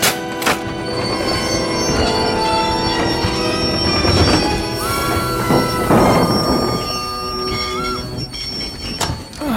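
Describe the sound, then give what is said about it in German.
Desert express train braking abruptly on open track, its wheels letting out a loud, sustained high-pitched metallic squeal over a constant heavy rumble of rolling cars, continuing without a break throughout. “Was ist das für ein Lärm? Und warum hat der Zug so abrupt auf freier Strecke gebremst?”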